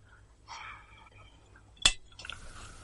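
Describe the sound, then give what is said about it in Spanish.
A drinking glass gives a single sharp, bright clink as it is picked up. Faint rustling comes before and after it in an otherwise quiet scene. “Coge un vaso y se dirige al baño para llenarlo.”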